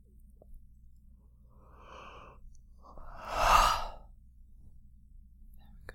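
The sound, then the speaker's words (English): Slow breathing during a guided breathing exercise, focused between the sternum and heart: a faint soft breath comes first, then one louder, drawn-out airy exhale swells and fades over a quiet background. “All you have to do is breathe between the base of your sternum and your heart space.”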